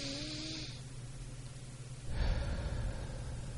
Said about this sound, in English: practice some deep breathing. Oxygen is really important for the body.